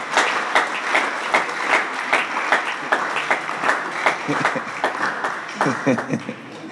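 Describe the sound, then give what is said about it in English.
Rhythmic hand clapping from an audience at a church Sunday service: many steady, sharp claps in a regular beat that continue throughout, mixed with voices. “Are you clapping or what are you doing?”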